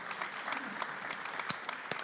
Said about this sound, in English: Last lie. You can clap for that. It's great.